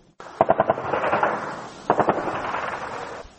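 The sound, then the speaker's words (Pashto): Automatic gunfire and heavy weapons fire from militant attacks on the security belt around Lashkar Gah in Helmand: two sharp bursts of rapid shots with a rumbling echo between them, then a single loud shot at the end. “دا د لشکرګاه ښار پر امنیتي کمربند نږدې هر شپه د وسلوالو د بریدونو او درنو وسلو د استعمال او ډزو ژغونه دي.”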